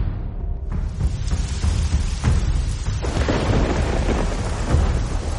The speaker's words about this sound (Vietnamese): Trời đột nhiên đổ mưa nhỏ